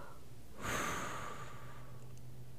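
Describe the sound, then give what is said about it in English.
A single deep breath, drawn in and let out as a soft, noisy rush of air after a moment of agitation, quiet and alone with no talk. “Let me calm down. Let me take a deep breath.”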